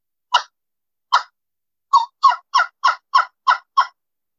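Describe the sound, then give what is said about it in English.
Crisp, high hen-like yelps from a turkey call made of two pieces of cane with a wing bone mouthpiece, sounded by sucking air. Two single yelps come first, then a quick, evenly spaced run of seven. “This is a piece of cane. Two pieces of cane with a wing bone mouthpiece. Okay. And it's just a different sound.”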